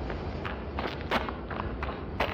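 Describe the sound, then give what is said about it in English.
Running footsteps make a quick, uneven series of soft thuds and scuffs, faint but steady, with a couple of slightly sharper impacts. “I didn't know that old man could run so fast.”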